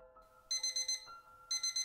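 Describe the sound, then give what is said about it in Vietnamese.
An alarm clock goes off at 4:30 in the morning with bright, rapid electronic beeps in two quick bursts separated by a short pause. It is fairly faint, with a low steady tone underneath and no talking. “Tiếng chuông báo thức vang lên.”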